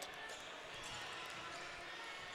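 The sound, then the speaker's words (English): A basketball is dribbled during a high school boys' game, its bounces blended into a constant wash of crowd and court noise. “up top, taking his time dribbling.”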